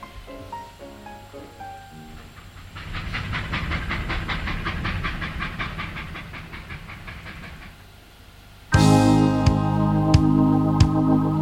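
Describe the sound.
Steam locomotive chuffing in a steady, rapid rhythm under a broad hiss, preceded by a few soft tonal notes and ending with a sudden loud blast of steam and whistle-like tones.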